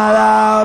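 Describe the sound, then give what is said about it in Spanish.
A DJ siren sound effect blares at a party event. A loud, buzzy, horn-like tone with steady harmonics holds for about half a second, then cuts off sharply. “Sirena DJ, porque se viene.”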